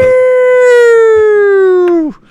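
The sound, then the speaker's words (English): A protest siren sounds outdoors as one loud, sustained wail with a steady tone, its pitch sinking slowly throughout before dropping away abruptly near the end. “Just the protest siren right now.”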